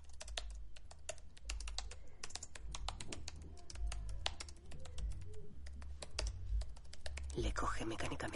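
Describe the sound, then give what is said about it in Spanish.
Rapid typing on a laptop keyboard in a small Paris apartment: many quick, light key clicks in an uneven stream throughout, with a brief louder burst of noise near the end. “El mismo joven escribe en un ordenador portátil.”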